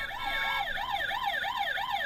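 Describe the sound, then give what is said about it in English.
A toy fire truck siren wails in a fast, repeating rise and fall, steady and fairly quiet throughout, with no voices. “that's the quietest fire truck I've ever heard”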